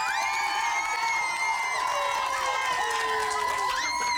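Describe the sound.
A studio audience of young choristers from St. Paul's Choir School cheers loudly and without a break, with high-pitched whoops and shouts over the crowd noise throughout.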